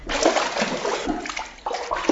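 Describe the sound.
Water splashes and sloshes as someone is thrown in, a steady noisy wash broken by a few stronger surges, with no voices.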